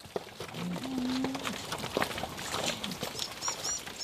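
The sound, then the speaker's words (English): A herd of Red Devon beef cattle moving along a muddy track in the Waimata Valley near Gisborne, with a low drawn-out moo over a steady bed of shuffling movement noise and faint bird chirps later. “moving her herd on a muddy track in the Waimata Valley near Gisborne”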